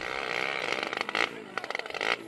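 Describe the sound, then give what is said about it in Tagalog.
A motorized tricycle arrives with a buzzing engine and a run of quick rhythmic pulses and rattles at moderate loudness, without speech. “Oh, sino yung naka-tricycle na yan?”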